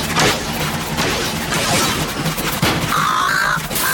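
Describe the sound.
Gunfire rages through a video game battle, a dense, loud, continuous stream of shots and crashing impacts with no break and no clear speech.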